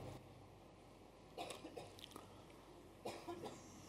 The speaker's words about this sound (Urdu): بھائی، آج کھانس رہے ہو کھانستے ہو